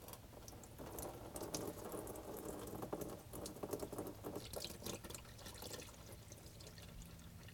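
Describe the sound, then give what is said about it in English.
Transmission fluid drains from a transmission pan with a faint, continuous liquid patter and splashing that runs the whole length, with no talk. “Keeping this transmission pan as level as possible, we're going to remove this screw here so we just have one remaining. Let all the fluid drain out before we get to that last one.”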